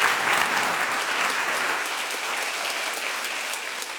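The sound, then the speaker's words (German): Applause from an audience at the close of a panel debate with experts at an evening science forum, a sustained dense wash of clapping that starts loud and slowly fades slightly over four seconds, with no voices. “Das ist Ihr Applaus. Applaus”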